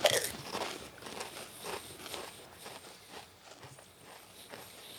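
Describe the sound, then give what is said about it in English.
Crisp crunching of chili cheese flavoured potato chips being bitten and chewed, a steady run of many sharp, fairly loud crunches with no talking. “It tastes like the chili cheese Fritos. Just on a potato chip.”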